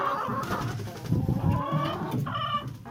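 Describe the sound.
Hens cluck around a chicken coop while scratching at the ground after rain, making a continuous murmur of soft, overlapping clucks with a brighter, higher call near the end.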